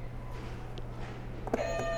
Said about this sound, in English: You can hit a buzzer.